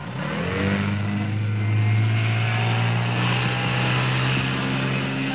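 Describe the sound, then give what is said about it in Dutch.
Racing speedboat engines roar at a 1966 international speedboat race near Bellingwolde in Groningen: a loud, steady, droning motor with a strong low hum that swells slightly midway and holds. “En rond Bellingwolde in Oost-Groningen worden in de zomer van 1966 voor de derde keer op rij internationale speedboat races gehouden. En dat klonk ongeveer zo.”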